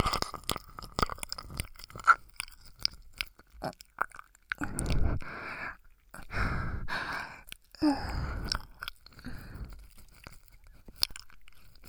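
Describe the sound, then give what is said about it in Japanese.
Ear-licking mouth sounds come as wet smacks, slurps and soft tongue clicks in an irregular rhythm, with breathy sighs between bursts, fairly quiet. “耳なめなめしちゃうんだから。”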